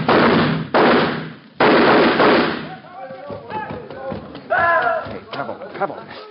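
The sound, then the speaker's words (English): Gunshots in an old radio drama: a few loud, heavy blasts in quick succession at the start, then they stop and voices talk. “You don't hear any more shots, do you?”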